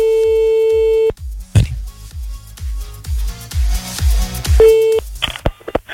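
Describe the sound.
A telephone call placed from a radio studio: a steady, single-pitched ringing tone sounds, breaks off, and returns briefly later, with a rhythmic pulsing beat underneath throughout.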